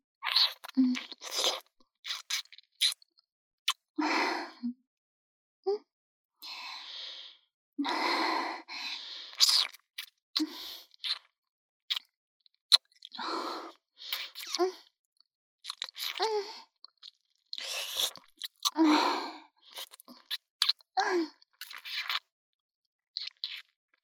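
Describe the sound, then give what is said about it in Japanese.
Deep kissing with tongues, rendered as many wet smacking and sucking sounds mixed with sighs and breaths, coming in irregular bursts of varying loudness with brief silences between them. “舌を絡めて、エロいキスしよう。”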